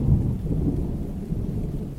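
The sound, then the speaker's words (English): Heavy rain falls in a downpour as a steady, low, roaring wash with a deep rumble throughout. No voices are heard. “it looks like the heaviest rain yet”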